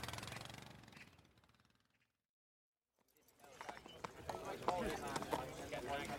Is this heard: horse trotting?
yes